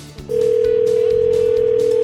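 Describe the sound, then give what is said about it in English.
A telephone dial tone for a call to a fishing and outdoor shop on US 2 in Gladstone: a short click, then a loud, steady, unbroken single tone that holds to the end. “So let's dial him up at Marbles Outlet on US 2 in Gladstone”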